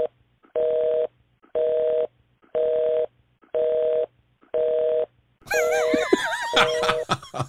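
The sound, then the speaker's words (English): A telephone busy signal: a steady mid-pitched tone pulsing on and off in an even, loud rhythm of about half-second beeps, with other noisy, uneven sounds over the last few beeps. “So it looks like we got a busy signal as our next caller”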